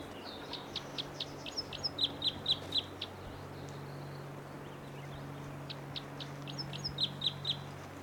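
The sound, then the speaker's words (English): A bird calls from a tree above a camp in two separate runs of rapid, high-pitched chirps. The calls are fairly faint over a steady low drone. “There's the bird again.”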